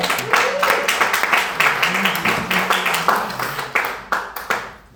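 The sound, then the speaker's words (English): A church audience claps to honor God after congratulating a family. Many hands strike in a lively, uneven patter with sharp, dense claps that continue through the whole stretch. “Let's put our hands together for God.”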